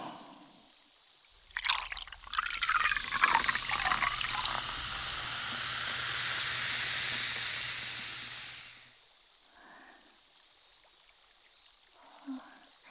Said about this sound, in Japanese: じゃあちょっと後ろに失礼して、先輩の耳元でこれは注いであげますね。